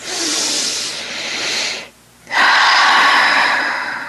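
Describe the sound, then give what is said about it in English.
Deep breaths from a guided breathing exercise come as loud, airy hissing rushes of breath, separated by a brief silent pause, with no voices. “close your eyes and to breathe 3 times, allowing for the cleansing soul breath of life to move into and through your souls of.”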